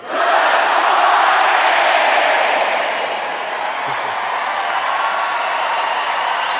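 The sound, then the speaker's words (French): An audience roars a cheering greeting on cue, a loud, sustained crowd shout mixed with whoops that eases slightly partway through but carries on to the end. “Eh bien, Bill, Valery, voici un petit salut pour vous de la part du public. Check it out. 1, 2, 3.”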